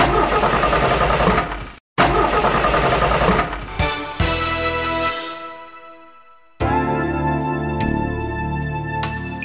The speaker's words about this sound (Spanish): Caballero, ¿se le para de repente? ¿Se le derrama el líquido? Esto es señal de que su coche necesita bujías Prestolita.